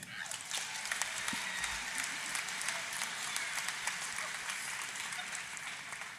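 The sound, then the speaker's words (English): A church audience at a Christmas service breaks into applause, dense and steady clapping that holds at an even level for about six seconds. “Let's give the Lord a hand.”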